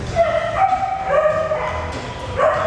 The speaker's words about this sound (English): dogs are welcome.